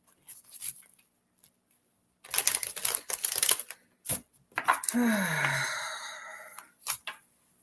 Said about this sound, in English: Okay, let's pull a card. Oh, they want me to pull one of these cards. Oh, I'll pull one from this deck.